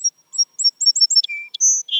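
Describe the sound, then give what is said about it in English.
Song sparrow singing: a run of high, sharp chirps in quick succession, then a lower sustained whistle and buzzy closing notes, heard alone against silence. “Someone can take away all the uncertainty and say, yes, that's a song sparrow.”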